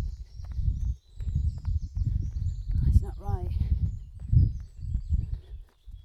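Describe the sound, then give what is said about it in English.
Running footsteps crunch on a gravelly trail in a steady, quick rhythm of soft thuds, continuing beneath a voice that talks throughout. “I'm now on quite a gravelly trail. It's quite different from where I was before, which was muddy.”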